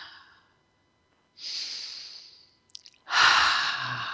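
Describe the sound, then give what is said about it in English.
Deep, slow breaths during a guided relaxation exercise: the tail of an exhale, a long airy inhale, a few small mouth clicks, then a fuller, louder exhale. “So let's take a couple of breaths.”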